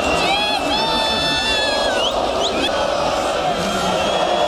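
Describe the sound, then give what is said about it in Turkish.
Galatasaray fans celebrate a Süper Lig championship on Istiklal Avenue in Taksim, Istanbul, with loud, continuous crowd shouting and cheering. High shrill calls and whoops rise above the din throughout. “İstiklal Caddesi, Taksim şu an sarı kırmızı ve burada taraftarlar eğlenmeye, sloganlar atmaya ve şampiyonluğu kutlamaya devam ediyorlar.”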